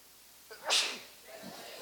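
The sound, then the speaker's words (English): A single sneeze during a church sermon: one sharp, explosive burst that quickly fades into quiet. “That may be a first when I was preaching, now that I think about it. I don't know that I've ever sneezed while I preach.”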